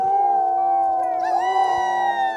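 Sled dogs from Iditarod racing teams howl together on the trail at Unalakleet, Alaska, in several loud, overlapping, sustained howls with sliding pitches. Higher howls join partway through.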